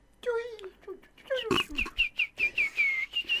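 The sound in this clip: Parrots chattering in a quick string of whistled chirps and squawks, bright and tonal, ending in a run of short, evenly repeated calls.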